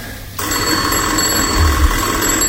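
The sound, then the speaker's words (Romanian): Telephone bell ringing: after a short quiet start, a loud, continuous metallic ring sets in and carries on without a break to the end. “Telefonul. Să răspund?”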